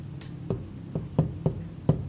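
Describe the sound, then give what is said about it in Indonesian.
Gentle knocking on a door, given as a demonstration of slow, soft knocks: several separate dull raps with short, uneven gaps between them, heard alone. “Sesuatu yang diketuk. Pelan-pelan. Pelan-pelan, ibu ketuk pintu contohnya, assalamualaikum ya.”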